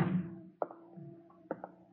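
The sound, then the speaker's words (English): A window is being closed: two soft knocking thuds sound about a second apart over a low, faint hum. “I'll see that the window is closed, Mrs. Webb.”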